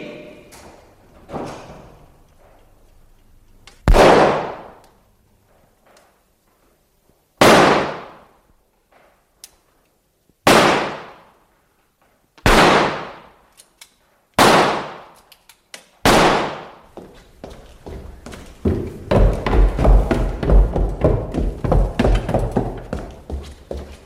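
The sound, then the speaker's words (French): Gunshots ring out as six loud, sharp bangs, each with a quick fading tail and spaced unevenly a few seconds apart. A few fainter knocks come before them, and a dense rumbling clatter follows at the end. “Vous avez entendu ? Je suis pas sourde. Combien de coups de feu ? Deux.”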